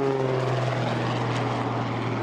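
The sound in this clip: A propeller airplane's engine drones as it flies an aerobatic barnstormer loop with a snap roll, flown by a production test pilot. The hum stays steady and fairly loud throughout, with no voices.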